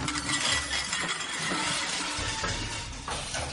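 A stack of plates pushed over in a Chinese restaurant dining room, crashing into a dense, continuous clatter of ceramic clinks and rattles that stays fairly loud for about three and a half seconds.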